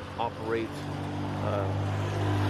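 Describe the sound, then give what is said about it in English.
Cars pass by outdoors, a low rumbling traffic noise that swells toward the end beneath a voice talking. “I love how all the cars are out right now.”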